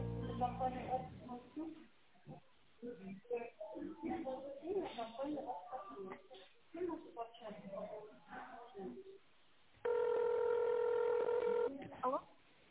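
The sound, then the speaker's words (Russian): A telephone keypad DTMF tone dials an extension on a company's automated phone menu. One steady, loud tone lasts about two seconds and follows a recorded voice speaking Russian. “Если вы знаете внутренний номер абонента, наберите его, пожалуйста, в тоновом режиме.”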